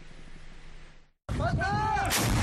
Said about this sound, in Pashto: د اوکراین بخمود خار کې پوز مورچې سنبال کړي او د جګړې په لومړۍ کرخو کې لټو پو ډزې کوي.